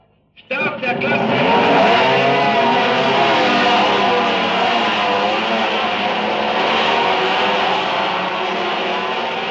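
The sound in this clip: Racing motorcycles with single-cylinder rotary-valve engines fire up at a race start. A sudden burst breaks near silence and swells into a loud, sustained, buzzing engine roar that holds to the end.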